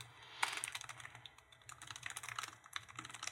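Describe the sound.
Many rapid keystrokes on a computer keyboard as code is typed for a web page. The clicks are quiet and uneven, with no voices.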